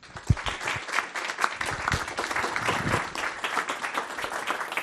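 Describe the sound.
An audience applauds to welcome a speaker to a talk on plastic pollutants and health. Sharp individual claps quickly build into full, lively applause that continues throughout.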